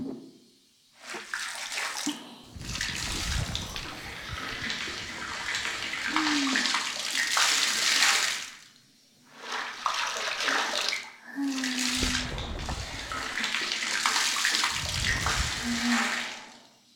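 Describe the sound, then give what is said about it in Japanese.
Running water rinses hair treatment out of someone's hair, a soft, steady rushing flow broken by a few brief pauses. “もう大丈夫そうかな。トリートメントは流しちゃうね。”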